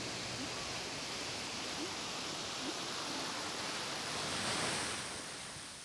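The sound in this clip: Sea waves rolling in and out: a steady, broad rushing wash of surf that swells slightly toward the end, with no voices.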